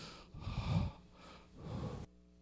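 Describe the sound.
Two deep, forceful breaths with a snorting, nasal rasp, taken during a breathing exercise paired with counted motions. Each lasts well under a second, separated by a short pause, and quiet follows.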